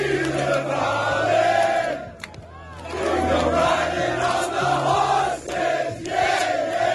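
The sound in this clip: A protest crowd sings together while blocking Melbourne's Westgate Bridge, many voices merging into a loud, sustained chant-like song with brief dips in volume before swelling again.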